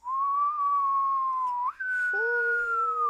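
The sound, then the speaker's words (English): A person whistles to imitate wind outside a palace window. One long wavering tone dips briefly, then returns higher and slowly sinks, and a lower second tone joins it near the end. “she heard a whistling noise outside of the window. And the whistling noise went,”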